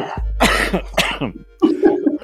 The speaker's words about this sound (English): All this talk of smoking is making my smoker's cough come back.